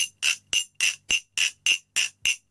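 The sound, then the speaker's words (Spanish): A glass bottle is tapped as a percussion instrument while the holding hand closes and opens, giving a steady, evenly spaced series of bright, ringing clinks with short decays and silence between them. “Lo que estoy haciendo es cerrar y abrir la mano a la hora de aguantar la botella. Mano cerrada, mano abierta.”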